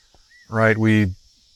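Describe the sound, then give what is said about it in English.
Cicadas buzzing loudly outdoors: a steady, high-pitched drone that runs unbroken through the whole clip, with a brief voiced sound rising and falling over it midway. “those are cicadas, sorry about the noise, if it's objectionable. Pretty loud right here.”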